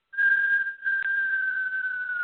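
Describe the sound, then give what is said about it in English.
A whistling inhale drawn through the mouth during a breathing meditation gives one sustained, clear whistle tone that holds an even pitch and sags slightly toward the end, with a brief dip in level early on. “The way you inhale, though, is you're creating a whistle.”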